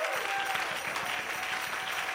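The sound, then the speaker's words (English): Church audience clapping their hands to the Lord, a dense, continuous patter of many hands that starts almost at once and stays steady and moderately loud to the end. “Everybody clap your hands to the Lord.”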